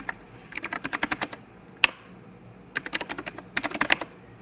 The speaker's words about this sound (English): it helps if I type the host name right.